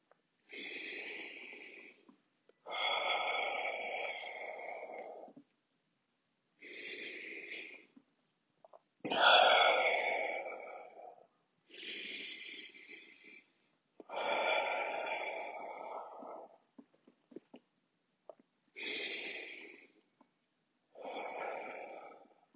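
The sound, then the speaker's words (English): Slow, deep breaths in a calming breathing exercise: eight long, airy inhales and exhales, each lasting a couple of seconds, separated by short silent pauses. “Breathing. Do it with me. Breathing, do it with me.”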